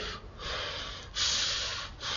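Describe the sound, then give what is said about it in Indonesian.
Someone imitates the panting breath of a person running: loud, rasping, noisy breaths in a steady rhythm, each long breath separated by a brief pause. “ada orang yang memang lari dia nafasnya ikut dengan pacuan gerakan-gerakan tubuhnya”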